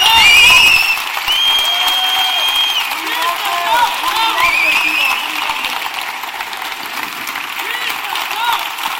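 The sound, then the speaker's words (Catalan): Applause and cheering from a crowd after a festival proclamation speech for the Sant Bartomeu procession: loud, dense clapping with shouts that carries steadily through the whole stretch. “crits i tot, aplaudint aquest moment que ens ha regalat en Jordi Martí”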